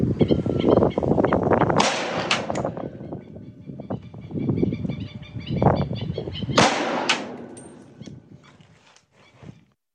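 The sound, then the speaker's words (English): Sharp, abrupt reports from an AR-15 rifle firing 5.56 rounds at a pig's ear, each blast bursting out with a ringing tail that fades away, set against a low rumbling background. “Shooting an AR-15, 5.56. This is going to be our damage test on an ear. We're going to try to graze it and see what we can do.”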